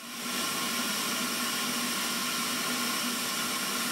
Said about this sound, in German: Dadurch entsteht ein Unterdruck in den Tiegel. Und durch diesen Unterdruck wird das Metall durch den langen Rüssel aus dem Ofen in den Tiegel gesaugt.